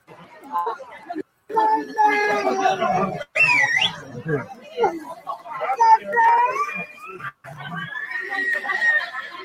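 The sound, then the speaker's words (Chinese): A child cries amid the chatter and hubbub of voices in a crowded Beijing hospital, the high, wavering wails rising over the babble with brief gaps between bursts. “那个小孩子在哭。”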